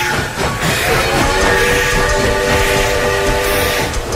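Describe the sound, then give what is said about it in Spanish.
Train arriving at a station, a loud continuous rumble of rail noise with a sustained high tonal whine running through the middle and later part. “Al fin llegó el tren que esperaba la señora.”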